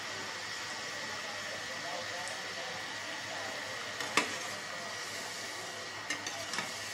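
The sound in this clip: Samosas frying in very hot oil give a steady, dense sizzle with a few sharp pops and crackles toward the end.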